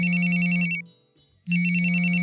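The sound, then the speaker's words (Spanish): Cell phone ringing: a loud, buzzy electronic ringtone that breaks off for a moment, then starts again. “De pronto, sonó mi celular.”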